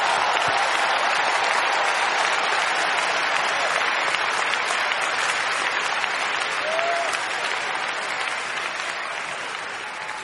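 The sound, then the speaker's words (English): An audience gives a big round of applause, a dense, loud wash of clapping that holds steady and eases slightly toward the end. “Please join me in giving him a big round of applause.”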